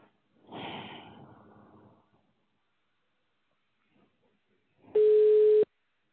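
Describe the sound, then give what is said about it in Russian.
A ringback tone sounds on an outgoing phone call as it connects: one steady, loud, mid-pitched beep lasting under a second, heard after a stretch of near silence. “Вам звонок с Яндекс недвижимость. Начинаем звонок покупателю.”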